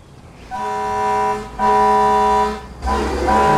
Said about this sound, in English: David and Jen watch as an old-fashioned fire engine comes down the street.